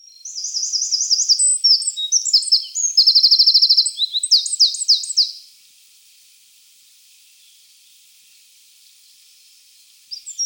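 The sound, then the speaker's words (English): Loud, high-pitched song of a wren singing low in thick cover. It is a fast run of sharp notes and buzzy trills lasting about five seconds, then quiet, with a new phrase starting just at the end. “Wren, astonishingly loud, singing often about knee-high in thick cover, and usually with a strong trill at the end.”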